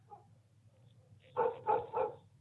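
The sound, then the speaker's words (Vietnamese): Outside at night, a dog barks three times in quick succession. The barks are sharp and mid-pitched, and they rise out of a low, steady hum after a quiet stretch. “ở bên ngoài chúng tôi nghe loáng thoáng có tiếng chó cắn ma.”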